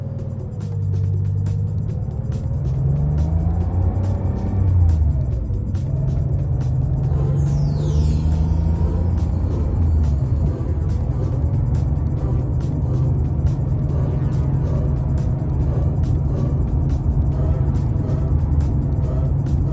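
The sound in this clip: A car engine rumbles steadily and loudly throughout, as the car speeds through a town during a chase, with no voices over the continuous low roar.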